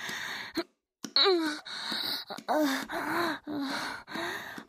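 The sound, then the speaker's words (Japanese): A person cries in breathy, wavering sobs and gasps, many voiced whimpers in quick succession with a brief silence near the start. “泣くな泣くな。”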